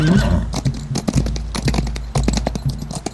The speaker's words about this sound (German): Wir haben sein Pferd erschossen.